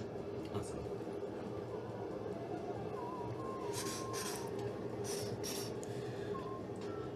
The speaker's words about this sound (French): Le métro continue vous arrivez à la première station, celle du euh, Right Eye District.